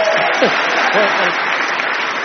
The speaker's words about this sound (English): He wrote this song. And he needs a round of applause.